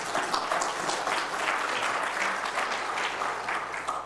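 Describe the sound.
An audience applauds to welcome a speaker, an even, dense patter of clapping that holds steady from start to finish at a fairly soft level.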